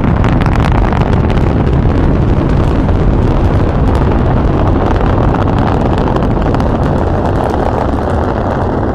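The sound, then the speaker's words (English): A spaceship blasts off in a radio-drama sound effect, a loud, continuous roaring rush of dense noise that holds steady and unbroken for the whole stretch. “The Zan leaving Earth forever. They're blasting off.”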